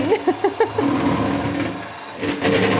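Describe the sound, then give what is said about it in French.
Electric mixer beating with whisks: a few short motor bursts, then a continuous high whirring drone that dips slightly before swelling louder again at the end. “là, on va arrêter le batteur. Ah, ben ça fait du bien quand ça s'arrête quand même.”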